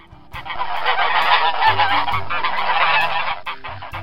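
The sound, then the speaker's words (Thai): A flock of geese being driven through a gate honks loudly in a dense, continuous chorus of overlapping calls that fades near the end. “เธอและคอนราดกำลังไล่ฝูงห่านผ่านประตู”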